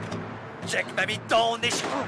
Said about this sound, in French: Ça faisait un moment que j'avais pas tiré, j'ai oublié.